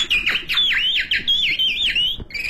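A person imitates a caged songbird's call with high, clear whistled chirps, a rapid run of many notes with repeated swooping dips and rises in pitch and no talk.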